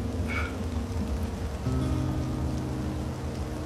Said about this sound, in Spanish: fuera llueve